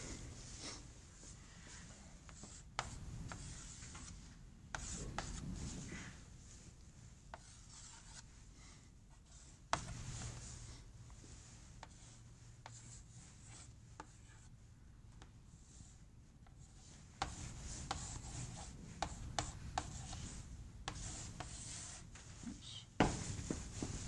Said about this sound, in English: I'm going to draw up a block diagram this time.